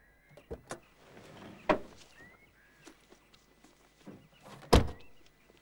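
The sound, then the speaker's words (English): Car door sounds as someone climbs out of the front seat of a car parked outside an old school in Rye on a wintry morning: a few sharp clicks and thunks, the loudest knock near the end, over quiet background. “After orienting himself, Theo gets out of the car.”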